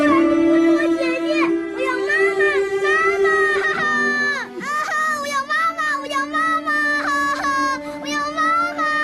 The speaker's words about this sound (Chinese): 不哭了啊，不哭了。